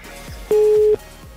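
A telephone ringback tone sounds while a call is being placed: a single steady, mid-pitched beep lasting about half a second, with faint low noise on the line around it.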